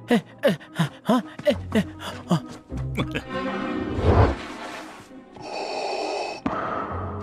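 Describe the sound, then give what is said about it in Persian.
Loud, heavy breathing: many short, voiced, gasping breaths in quick succession, then longer rough and noisy breaths. “بس دیگه، انقدر بلند نفس نکش، لامون میدی.”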